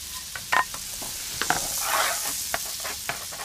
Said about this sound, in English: 25 grams of butter in a saucepan. Then add half a large onion, chopped,